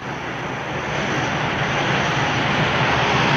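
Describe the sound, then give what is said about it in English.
An airplane's engines roar as it accelerates down the runway for takeoff, a dense, steady rushing noise that swells gradually louder over a few seconds. “The aircraft accelerates down the runway and lifts off, soaring up into a clear blue sky.”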